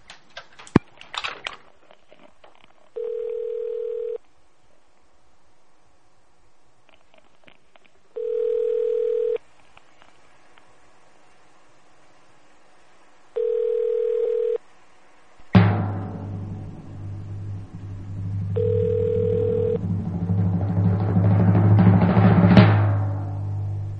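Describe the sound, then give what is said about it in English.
A telephone ringback tone sounds: four steady mid-pitched tones, each about a second long and roughly five seconds apart. The last tone is partly buried under a broad, rising wash of noise. “Oh, we got a ring.”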